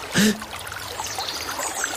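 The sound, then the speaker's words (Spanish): Water trickles in a stream as a steady, soft, hissing wash, with a brief louder burst at the very start. “Siéntate junto al arroyo.”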